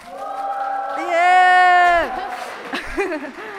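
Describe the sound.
Live audience cheering and whooping, with one sustained high vocal 'woo' swelling in the middle before breaking into scattered shouts and voices.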